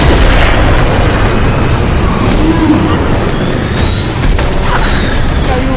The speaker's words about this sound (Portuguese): Acionei a bomba que eu colei no peito dele.